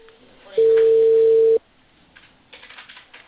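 Telephone ringing tone on a call that goes unanswered: one steady tone about a second long, followed by low line hiss and faint scattered noise.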